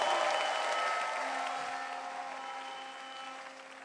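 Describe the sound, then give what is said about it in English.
An audience claps at a church service, with a dense wash of applause that is loudest at the start and slowly fades over a few seconds, while a faint sustained tone hums underneath. “Give the Lord a clap offering right here.”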